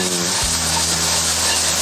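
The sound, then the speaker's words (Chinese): Steady sizzling hiss from bean sprouts, ginger strips, garlic slices and onion stir-fried in a wok with only a little leftover oil. The noise runs loud and continuous throughout, with a faint low hum underneath. “这样炒一炒，要的是去它的水气。”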